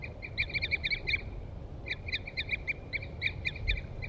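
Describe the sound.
Short 'toop' calls from a pair of birds, male and female, with a caged bird calling alongside a wild one. Many quick, clear piping notes come in two runs separated by a short pause, faint over low background rumble.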